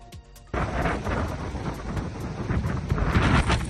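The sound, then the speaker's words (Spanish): Strong wind gusts buffet the microphone during wildfire emergency work near Llançà, Girona: a loud, deep rumbling roar bursts in after a brief quieter moment and keeps pulsing, growing slightly stronger toward the end. “Y esto que estamos escuchando son las fuertes ráfagas de viento que dificultan las labores de emergencia.”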